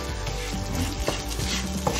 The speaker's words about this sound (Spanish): Vamos al arroz y le vamos a remover un poquito con la verdura esta tosadita de arroz blanco, ¿eh? Redondo este.